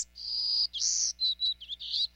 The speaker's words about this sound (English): A golden-cheeked warbler, to be exact. He's smaller than a sparrow, with a white belly, yellow face, and black throat.